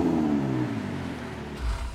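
An Italian sports car's engine hums with a deep, throaty tone that sinks lower in pitch over the first moments, then settles into a steady low drone with a brief heavier push near the end.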